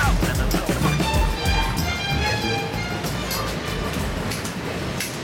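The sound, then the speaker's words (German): A passenger train bound for Long Island rumbles steadily along the rails, with a dense, even roar and faint clattering throughout. “mit Yisroel im Zug nach Long Island. Wir fahren zu seinen Eltern.”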